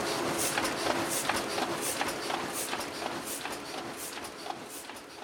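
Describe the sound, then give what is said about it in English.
A printing press runs off book pages, or signatures, with a steady mechanical clatter in quick, evenly repeating pulses that stay at a constant level throughout. “And then... suddenly, papers are flying out of the machine. Congratulations! It's a book!”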